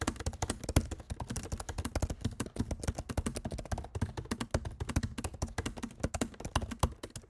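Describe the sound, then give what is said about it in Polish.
Typing on a quiet Apple laptop keyboard, captured by the laptop's built-in microphone: many soft, crisp key clicks in a fast, irregular stream, faint overall and with no voices. “A gdybyśmy korzystali z wbudowanego mikrofonu, bo tak, cały podcast nagrywam na wbudowanym mikrofonie, to klawiatura brzmi tak.”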